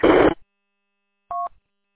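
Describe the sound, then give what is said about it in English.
A short two-tone telephone beep signals an incoming phone call. It sounds once, clean and alone, after a brief burst of noise and a pause. “I'm going to get out of here. I got a phone call coming in.”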